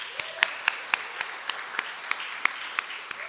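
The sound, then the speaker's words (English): An audience applauds during a church service. Many sparse claps ring out at an even, unhurried pace over a soft background. “can we give a good hand to Priya for doing such a good job last week?”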